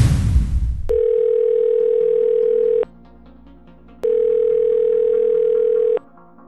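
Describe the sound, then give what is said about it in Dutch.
Ringback tone of an outgoing telephone call: two long, steady, mid-pitched tones of about two seconds each, separated by a silent gap and preceded by a short rustling noise. “Ik zal anders mijn trouwe historische privédetective Joost even bellen.”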